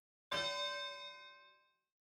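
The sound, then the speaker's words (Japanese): A single bright bell strike signals the start of a fight in a grimy arena. It rings out with a shimmering metallic tone, fairly faint overall, and fades away over about a second and a half. “始まりの鐘が鳴ったね。”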